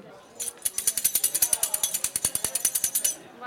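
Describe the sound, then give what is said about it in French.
A hollow spear with small rattles inside is shaken in a steady rhythm, giving a rapid run of many bright, crisp rattling pulses for about three seconds before it stops. “ça ressemble à une lance, sauf qu'elle est creuse et au milieu il y a des petits hochets. Tintina, voilà, exactement, qui permettent de faire du bruit.”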